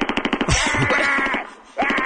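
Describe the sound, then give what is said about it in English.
Machine-gun fire as a comic sound effect during a mock haircut: a rapid, loud burst of sharp pulses at the start, followed by a sustained, noisy rumbling tail. “Is that a machine gun? Yes, that makes the hair fluffy.”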